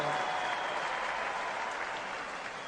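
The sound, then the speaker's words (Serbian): Audience applause for an orchestra at a kafana evening: a fairly soft, continuous patter of many hands that holds steady, then eases off slightly toward the end. “Može li jedan najveći aplauz za orkestar Ace Stojneva? Jače, jače, jače!”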